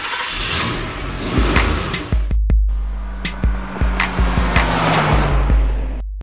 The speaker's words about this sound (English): This is the Driving with Randy podcast, a podcast where we will put the key into the ignition and we will be going for a ride.